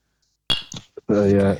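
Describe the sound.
Two drinking glasses are tapped together in a toast, giving a single bright, ringing clink followed by a couple of softer knocks before a voice begins speaking.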